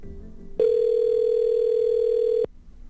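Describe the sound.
Telephone dial tone while calling a toll-free hotline number: one steady, loud, unwavering hum that cuts in abruptly, holds for just under two seconds and stops just as sharply over a faint background.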